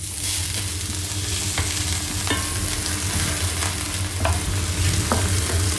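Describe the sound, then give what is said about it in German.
Onions sizzle steadily in a frying pan for a Spätzle dish, a constant crackling hiss broken by a few sharp scraping taps from stirring. “dann braten wir die Zwiebel an.”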